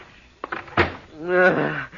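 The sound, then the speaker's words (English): A door shut as someone is let in out of a storm: a short knock, then a louder, heavier thump of the door closing, followed by a lingering low resonance. “Close the door”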